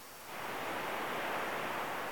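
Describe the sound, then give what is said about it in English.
Ocean waves washing onto a beach, heard as a soft, steady hiss of surf that swells up within the first moments and then holds evenly, faint and continuous with no voices over it. “And all you can hear is the sound of the waves and the sound of a voice.”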